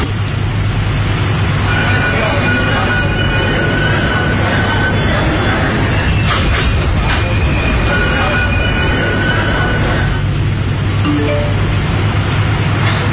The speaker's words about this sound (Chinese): 欢迎乘坐北京地铁一号线，列车开往四惠站方向，终点站是四惠东站。